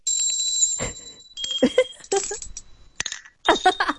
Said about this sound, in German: Kleine Glöckchen, aber nicht so ein Ramsch, sondern wirklich was Hochwertiges. Also gut kunstwerklich gearbeitet. Und wie klingen die?